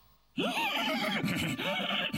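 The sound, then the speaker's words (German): A horse neighs as someone pulls on its tail: one loud whinny of about two seconds that begins abruptly and wavers up and down in pitch, heard alone. “Pferde mögen es eigentlich nicht so sehr, wenn sie am Schwanz gezogen werden.”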